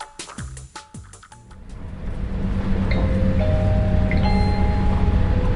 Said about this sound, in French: Mesdames et messieurs, notre train arrive en gare de Caen.